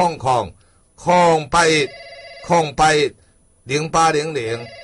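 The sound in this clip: A telephone rings on a call-in line in a few short electronic bursts. The rings fall between stretches of loud talk and partly under them.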